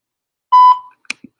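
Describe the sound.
A voicemail prompt beep: one steady, mid-pitched electronic tone lasting about a quarter second, followed by a couple of brief faint clicks.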